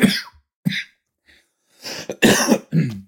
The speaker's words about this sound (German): Oh, das war mein morgendlicher Raucherhusten, Entschuldigung.